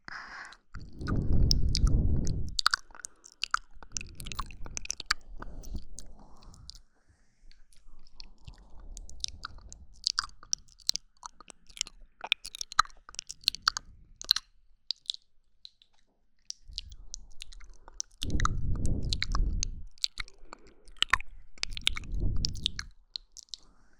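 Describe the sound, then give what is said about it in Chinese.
Chewing while eating food: many irregular, fairly quiet crunching bites and wet mouth sounds, with bursts of heavier chomping and short pauses, and no talk. “还是我替你吃吧。”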